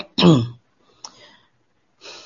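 A throat clearing by a male teacher during a religious lesson: one loud, low voiced grunt, then a faint short sound and a soft breathy exhale at the end.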